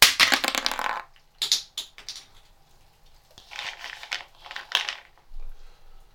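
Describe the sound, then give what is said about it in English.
Crinkling and crackling of a Brazil nut in a foil tray: a dense, loud crumpling burst opens, followed by several shorter, sharper crackles and rustles with brief quiet gaps between them. “Brazil nut foil tray.”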